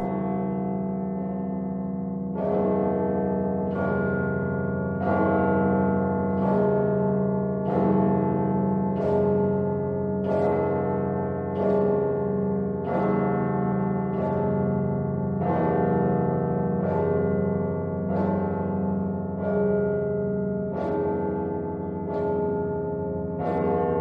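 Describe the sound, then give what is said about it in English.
Kremlin cathedral bells ring for Easter Vespers, a long, steady peal of many evenly spaced strikes whose bright ringing overlaps and sustains into one continuous wash of tones, with no voices. “It's rather a sweeping, sleek ringing, silver-edged, like endless singing, no visible beginning or end to it. A peeling and peeling.”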